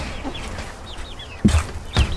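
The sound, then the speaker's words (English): Chickens of many varieties clucking in a coop, with soft, murmuring clucks and small chirpy calls, then two louder, sharper clucks near the end. “The coop is currently occupied by a new batch of chickens of many varieties.”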